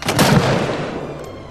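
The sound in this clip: Gunshot as a suspected suicide bomber is shot in a town square: one loud, sharp blast that spreads into a long rumbling decay and fades out, with no voices.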